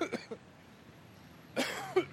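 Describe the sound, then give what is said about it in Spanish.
A few coughs from one person: two short ones at the start, then a quiet pause and a louder, longer burst of coughing near the end. “Un momento que voy a toser.”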